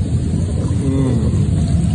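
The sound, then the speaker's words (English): Water churns in a home jacuzzi with a steady, dense rushing and bubbling that stays even and fairly loud throughout. “Here I am at home, taking a jacuzzi, smoking a little stogie.”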